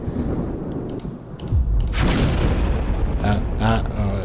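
A grenade explosion sound effect: a deep low boom swells into a loud, broad burst of roaring noise, followed a moment later by a few sharper crackling bursts before it settles into a rumbling tail.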